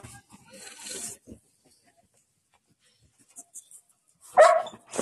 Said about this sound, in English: Oh, my puppy. This is a big sausage of a dog.